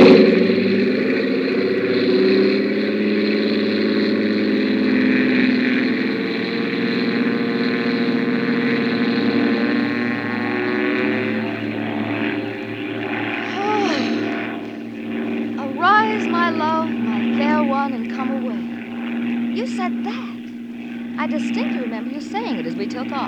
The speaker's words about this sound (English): Hold on. This is going to be the fastest takeoff in the books. Here we go.